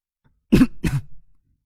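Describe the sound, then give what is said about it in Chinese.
Light throat-clearing coughs from a person, two short rough bursts close together, then silence, with no other sound. “张克轻咳了两声”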